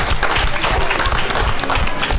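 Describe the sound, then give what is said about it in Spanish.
Audience applause at a public event about racism: loud, continuous clapping from many people, a thick, even texture that holds steady without a break from start to finish. “Pues un aplauso a los que son fáciles de ver. Hay muchos.”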